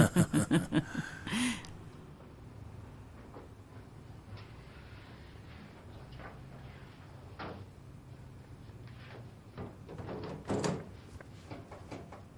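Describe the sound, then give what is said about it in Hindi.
A flimsy cabinet door under a bathroom basin being opened and closed: a quick burst of several wooden knocks at the start, a quieter stretch with a single tap, then another clattering thump near the end. “देखें देखें, ऐसा है कि जब शुरू में तो लगता है बिल्कुल ठीक हो गया, दो तीन बार खोलें बंद करें तो फिर वैसे ही गिर पड़ता है।”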